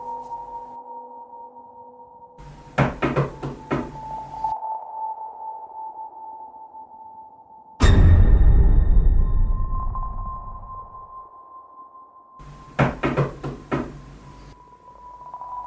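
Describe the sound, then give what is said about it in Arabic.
Knocking on a door comes in two separate bursts of several quick raps over a steady sustained tone. A loud rushing noise falls between the two bursts. “خبطة الباب كانت مميزة جدا”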